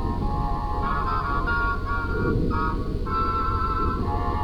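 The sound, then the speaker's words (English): A long elevator starts and rides up, a steady mechanical drone with a tonal whine running unbroken and fairly loud throughout. “we're going to walk over here to the elevator and start it up here, and we'll ride up.”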